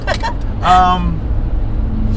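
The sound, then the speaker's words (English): Car interior driving noise, a continuous low rumble running beneath people talking inside the vehicle. “So here we are. Yes, we are in a car.”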